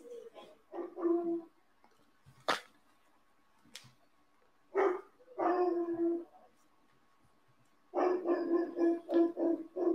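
Dogs barking at a home with someone at the door: a few clustered bursts of barks and yips with a whimpering edge, separated by quiet pauses and a couple of sharp clicks, loud and without talk.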